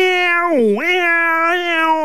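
Wild, drawn-out cat meow, one continuous loud yowl whose pitch sinks in the middle, then climbs back and holds with a slight wavering to the end.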